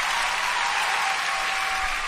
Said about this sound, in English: You deserve a round of applause too.